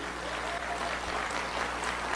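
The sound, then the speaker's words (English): An audience claps in a continuous, even wash of many hands, steady in loudness from start to finish with no clear individual claps standing out. “And by the way, notice the clapping seals.”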